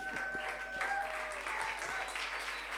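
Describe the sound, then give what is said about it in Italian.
Audience applause at a live concert: a fairly faint, even wash of clapping that holds steady throughout, with a few low thuds and sustained tones beneath it. “Un altro applauso.”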